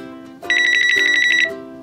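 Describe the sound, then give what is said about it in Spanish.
An electronic telephone ringtone signals an incoming call: one loud, warbling trill about a second long, sounding over lower sustained tones. “creo que esa es la llamada que estaba esperando para la teleconferencia.”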